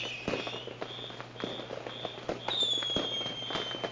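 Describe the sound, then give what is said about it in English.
Fireworks going off out of control on Father's Day: many sharp pops and crackles in an irregular burst pattern, with a high thin whistle sounding partway through. “The Father's Day fireworks are out of control.”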